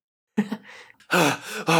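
A man panting, out of breath: a few heavy, voiced gasping breaths, the later ones louder and more strained, after a moment of silence.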